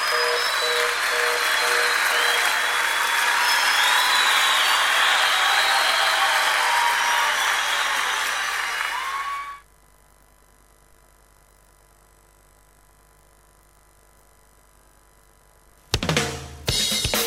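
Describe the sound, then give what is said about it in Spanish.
Crowd applause for a live band at a cumbia-themed show, with loud, dense clapping, cheering and shrill whistles for about nine seconds. It then cuts to near silence, and a brief loud burst sounds right at the end. “aplausos.”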